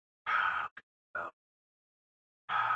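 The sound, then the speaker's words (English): A voice imitates heavy, wheezing respirator breathing with rasping, gasping breaths: a long one, two short bursts, a silent pause, then another long breath beginning at the end. “most of the larger people I know kind of breathe the same way as Darth Vader”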